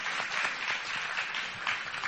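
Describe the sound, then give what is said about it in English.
Audience clapping, a steady wash of many hands applauding at moderate volume without pause. “So we can really clap for them.”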